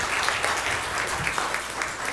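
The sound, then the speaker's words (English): An assembled audience gives a round of applause to council officers being recognized for their service, a sustained, fairly even patter of many hands at moderate loudness with no break. “Let's give them a round of applause for serving here at Peace.”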